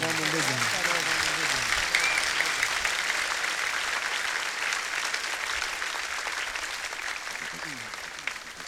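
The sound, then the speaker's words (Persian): Sustained, dense applause from an audience clapping in praise of Imam Ali ibn Husayn, holding a steady, even level for the whole stretch, with a voice faintly audible under the clapping at the start and end. “علی ابن حسین ابن یه کف بر آقامون بزن”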